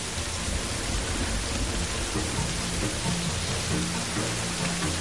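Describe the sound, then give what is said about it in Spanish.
Rain starting to fall at a roadside beside a cyclist, heard as an even, soft hiss of drops that stays at a steady, fairly faint level for the whole five seconds, with no voices. “Comienza a llover”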